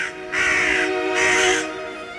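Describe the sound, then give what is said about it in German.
Two harsh, hoarse caws come from a young raven that has strayed from the hills. They are separated by a short pause, each call loud and raspy with a buzzy, nasal tone. “ein schwarzer Vogel, ein verirrter junger Rabe aus den Hügeln,”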